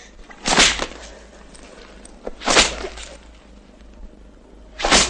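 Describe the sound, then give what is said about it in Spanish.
A leather belt lashes a boy's back three times, each a sharp, loud crack standing alone with quiet stretches between strikes. “Se quita el cinturón, enrolla un extremo en su mano y golpea al chico en la espalda.”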